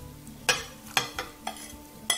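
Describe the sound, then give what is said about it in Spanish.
Stirring five beaten eggs into 800 grams of potatoes and a caramelized onion, with a few scraping strokes of a utensil against the pan over a low steady hum. “Y 5 huevos. Y esto lo movemos, lo vamos a dejar 5 minutitos ahí que vaya reposando.”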